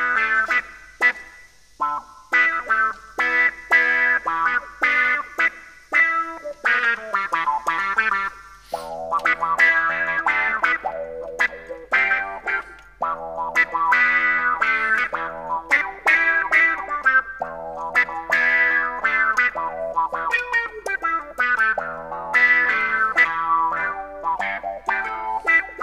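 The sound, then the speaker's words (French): Melodic notes played through stacked audio effects with chorus added give a shimmering, wobbling, echoing tone. Many short phrases are separated by brief gaps over about twenty-six seconds, with a low, steady hum underneath. “On peut très bien cumuler les effets là-dessus. On peut ajouter le chorus. On va en mettre un peu moins.”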